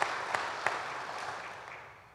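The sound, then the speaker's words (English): Applause from an audience at a public event on services for older people: a continuous, even patter of many hands clapping at moderate level, with a few sharper claps early on, then slowly tapering off. “If we could have a round of applause for them and if they would stand.”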